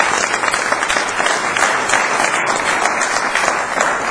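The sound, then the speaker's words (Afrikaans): Applause from a church audience after praise and worship singing, with dense, sustained clapping that holds strong and even for about four seconds. “Nou kom ons gee vir julle 'n groot, groot, groot hande.”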